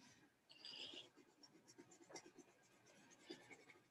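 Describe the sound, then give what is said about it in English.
Pen or pencil writing on a drawing makes faint, irregular scratching strokes in quick, uneven bursts that start and stop, soft and alone. “I'll write it down on my drawing.”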